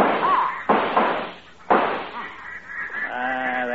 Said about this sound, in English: Hey, watch it! Here comes some more to the left, low. Shoot, fellas!